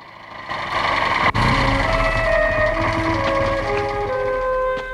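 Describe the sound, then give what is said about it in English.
A motorbike engine approaches across rocky desert terrain as a loud, steady drone with a tonal hum. It swells quickly at the start, a sharp click cuts through early on, and then the engine stays full and constant. “A motorbike rides towards them.”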